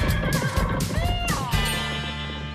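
A horse neighs loudly, a shrill whinny whose pitch wavers and falls, over a busy background of rumbling and thudding.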